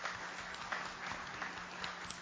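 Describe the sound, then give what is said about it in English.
An audience claps on request at a children's church talk: a dense, steady patter of many hands, fairly faint, with no voices standing out. “If you think that's really awesome, clap your hands.”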